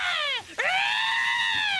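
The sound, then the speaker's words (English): A person's voice imitates a hawk's screech: two loud, shrill, rasping screams, each sliding downward in pitch, the second drawn out and held steadily. “Are you trying to impersonate my hawk sound?”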